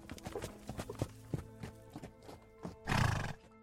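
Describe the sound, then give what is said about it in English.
A pony's hooves clip-clop in an uneven series of many steps, followed near the end by a louder, breathy whinny as the pony-shaped kelpie nuzzles up to someone. There is no talk. “The Kelpie flowed into pony form and muzzled up to Mary.”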